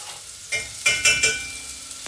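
Onion fries in a pan while being stirred, giving a soft, continuous sizzle broken by a few louder scraping stirs of the spoon.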